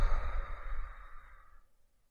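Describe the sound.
A deep breath released as a long, breathy sigh during a guided breathing exercise, in through the nose and out through the mouth. The airy rush starts strong and fades steadily to near silence over about two seconds.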